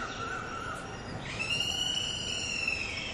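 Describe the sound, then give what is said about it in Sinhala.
A bird calls outside, a sustained, bright tonal cry with layered harmonics that begins partway through and holds steady to the end, over constant background noise. “ඔය කුරුල්ලෙක් කෑ ගහනවා ඇහෙනව නේද?”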